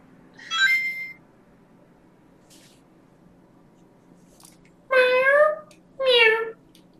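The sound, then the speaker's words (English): A cat meows three times: a short, higher meow, then after a long pause two louder, longer meows in quick succession, over a low steady hum. “the cat is a cat blessing. Blessed.”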